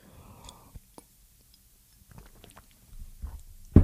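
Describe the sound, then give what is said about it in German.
A sip of a drink: a few soft, wet mouth clicks and faint swallowing noises over quiet, with a louder rustling burst at the very end. “Warte, kurz einmal einen Schluck trinken.”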